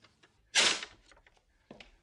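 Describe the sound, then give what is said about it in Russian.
A back door of an apartment being locked: one sharp, bright clack, then a fainter second click, both quiet against near silence. “Запирает дверь черного хода.”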